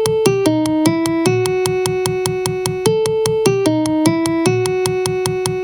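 A jazz tune's melody plays as a rhythm demonstration: clear pitched notes step downward and settle on a held tone, and the phrase repeats twice over a steady, even ticking pulse, with no voices.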